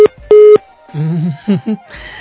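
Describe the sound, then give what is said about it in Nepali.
Busy tone on a telephone line after a dropped call: two loud, steady mid-pitched beeps, one very short and one longer. “दाङबाट राजा आउनु भएको थियो, सायद फोनमा केही समस्या आयो होला, आफैले त के काट्नुहुन्थ्यो होला र।”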